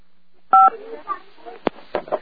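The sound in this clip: A single short, loud telephone keypad tone sounds as a phone line is picked up, and then a voice talks over the open line.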